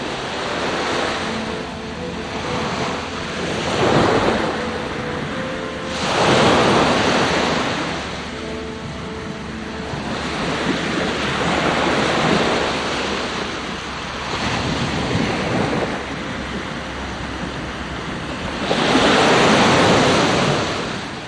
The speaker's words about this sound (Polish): Jeszcze chwila morza. No, nie Sopockiego, ale to jest też Bałtyk. Zimne, północne morze.